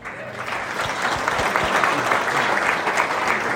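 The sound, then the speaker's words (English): Audience applause welcoming a comedian, the final speaker for the negative side at a debate in Queenstown: dense, steady clapping that holds loud and even from start to finish. “as we put our hands together and welcome our final speaker for the negative side today, comedian Nick Ratto.”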